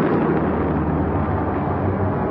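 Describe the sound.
A rocket blasts off with a continuous, dense, rumbling roar that stays steady and loud from start to finish, with no breaks or separate bursts.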